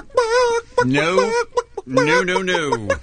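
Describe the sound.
Chicken-like clucking and squawking in the studio, voiced by a person imitating a chicken, comes in three drawn-out, wavering bursts separated by short gaps.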